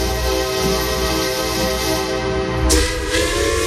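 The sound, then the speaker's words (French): A train at a station: sustained whistle-like tones ring over a steady, heavy rumble, and a sharp burst of hiss breaks in near the end. “Le train entre en gare de Dijpourin aujourd'hui.”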